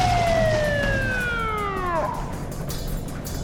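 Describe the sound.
Siren of a river police boat winding down, with its harmonic wail sliding steadily lower in pitch for about two seconds before dying out over a constant low rumble.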